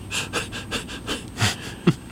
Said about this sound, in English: Deep breath. Deep breath.